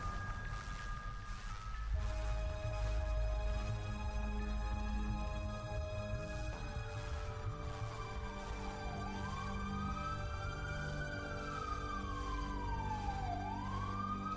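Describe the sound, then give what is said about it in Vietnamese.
An ambulance siren wails in slow rising and falling sweeps over a low engine rumble. It stays fairly faint and steady, with no voices. “Tiếng còi xe cứu thương kéo dài suốt một quãng đường chở Nhi”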